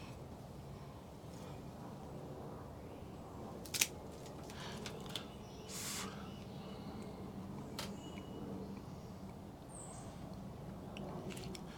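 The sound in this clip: A cigar cutter snips the cap off an Aganorsa Leaf Supreme Leaf Toro cigar, giving one sharp click amid faint handling rustles and a low, quiet background hiss.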